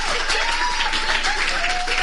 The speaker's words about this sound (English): I know no one is going to get the opportunity to give her a round of applause. So one more time for Professor Mrs. Okedeji.